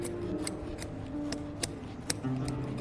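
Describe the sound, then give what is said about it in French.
Curved scissors snip through looped carpet yarn to cut the pile on a rug in a tapestry workshop. A faint series of sharp, crisp cuts comes at uneven intervals over a low steady hum. “on utilise des ciseaux qui sont courbes. Et ensuite, on coupe.”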